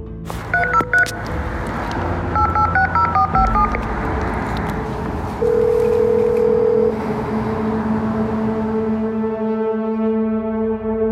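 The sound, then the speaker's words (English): Keypad tones as a code is dialed on an entry call box: a quick series of short two-tone beeps, then a longer steady tone, followed by a lower humming tone over faint background noise. “I dial the code”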